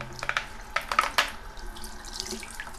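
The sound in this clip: Water runs from a bathroom sink tap while someone washes their face, a fairly quiet, steady stream broken by a few sharper splashes and bursts through the first half.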